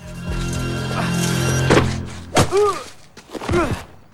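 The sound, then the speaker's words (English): A swift punch lands on a man's face with a sharp, thudding whack, set among a few heavy impact thumps and pained, groaning vocal cries. “Once through, he is punched swiftly in the face by one of the women robbers.”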